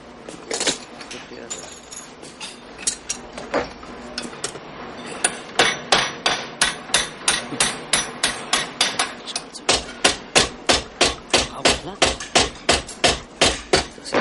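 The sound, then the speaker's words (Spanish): Metallic hammering comes from a factory worker bending a small metal plate and driving a bolt into it. A few irregular knocks give way to many sharp, evenly spaced strikes in a quick, steady rhythm. “Con ademanes expertos, el obrero realiza la operación completa. Dobla la chapita. Embute en ella el perno.”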